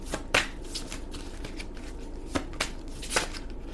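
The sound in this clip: Shuffling a deck of cards: a steady papery riffle with a few sharper snaps of cards slapping together, no voices.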